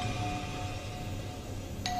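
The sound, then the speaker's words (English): A doorbell rings at a castle's big wooden door during pouring rain: a faint tone at the start, then a clearer chime near the end. “reached the castle's big wooden door and rang the bell.”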